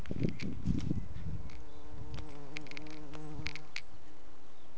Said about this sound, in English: That was a bee at a Scottish castle. Did you hear the bee?